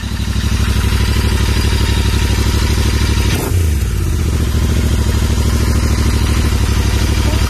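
A motorcycle engine runs loud and steady on a long ride, a dense throbbing drone that dips and shifts pitch briefly near the middle, then settles back into an even hum.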